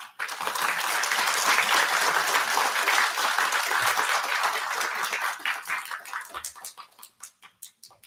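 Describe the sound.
Audience applause welcoming a speaker to a VMHC lecture: dense steady clapping that gradually thins out into a handful of separate, fading claps.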